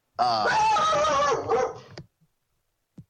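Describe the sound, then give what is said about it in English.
A dog gives one loud, long, drawn-out harmonic bark-like cry that breaks briefly near its end, then fades into silence broken by two short, faint sounds. “Because of the dog coming from somewhere. And dog, welcome to the show.”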